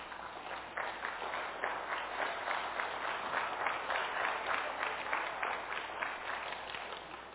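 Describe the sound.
Steady audience applause welcoming a couple, Jesse and Sue King, who are asked to stand; dense, even clapping holds at a constant level for the whole stretch with no pauses or voices.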